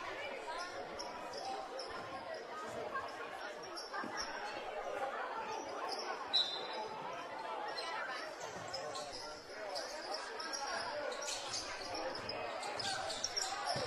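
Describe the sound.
A basketball dribbled across half court during a game, the bounces hard to pick out beneath a steady roar of crowd noise and chatter.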